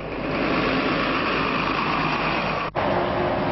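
Heavy trucks passing on a main road through the town of Tokaj, a loud, continuous engine rumble and roar with a brief dropout near the end.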